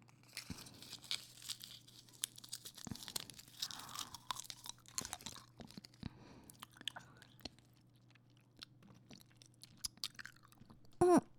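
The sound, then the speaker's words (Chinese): Crunchy chewing of a sweet food, with many irregular crisp crunches and bites that go on without pause, and no talking. “你还有十一颗呢，这么厉害。嗯，让我尝尝。”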